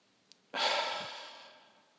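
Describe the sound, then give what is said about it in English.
One deep cleansing breath in a guided breathing exercise: a brief sniff in through the nose, then a long, whooshing exhale through the mouth that gradually fades. “Let's begin by taking three deep cleansing breaths, breathing in deeply through the nostrils into the belly, and then exhaling vigorously through the mouth.”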